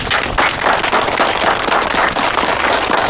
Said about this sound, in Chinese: 下面呢，这次由县里来的张主任给大家讲话了，鼓掌